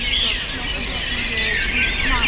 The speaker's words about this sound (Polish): O, tutaj rudzik. Ostatni odcinek, idziemy wśród śpiewu ptaków.